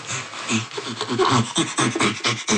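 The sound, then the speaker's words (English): An ape pants with laughter, sounding on both the inhale and the exhale. Many breathy, rasping pulses follow in a quick, even rhythm. “The panting comes from this inhalation and exhalation. And while inhaling, producing the sound, and while exhaling, producing the sound.”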